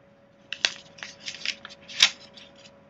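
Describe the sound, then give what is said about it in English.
Paper rustles and crinkles in a few crisp, uneven bursts, the two sharpest about a second and a half apart, over a faint steady hum. “Sorry about the paper noise.”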